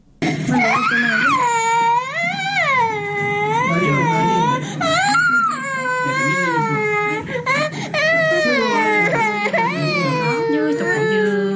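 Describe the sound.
Children crying from hunger in a poor, malnourished household: long, loud wails that rise and fall in pitch, broken by short gasps for breath and sobbing whimpers, continuing almost without pause.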